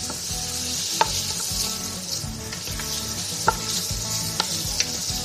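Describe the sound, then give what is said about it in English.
Garlic and onion sautéing in extra virgin olive oil over medium heat, a steady bright sizzle broken by a few sharp pops and crackles, with no voices. “Okay, let's put this over medium heat and start to saute that garlic and onion.”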